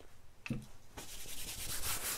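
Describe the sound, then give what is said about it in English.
Milk cleanser being rubbed over a face: a short tap, then soft, continuous scratchy friction that carries on steadily to the end. “Yeah, so just gonna rub that all over your face.”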